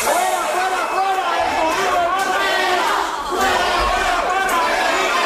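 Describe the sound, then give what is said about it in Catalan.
A street protest crowd in Barcelona chants against tourist flats. Many voices shout together in a loud, continuous mass with no pause for the whole stretch. “Aquest és el so d'una de les diverses protestes que cada estiu s'acaben produint en ciutats com Barcelona, precisament contra aquests pisos turístics.”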